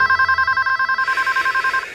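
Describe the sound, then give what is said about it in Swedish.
A telephone rings in the middle of the night: a steady electronic trill made of rapid, even pulses that repeat for about two seconds, loud and alone with no voices. “Vem ringer mig mitt i natten?”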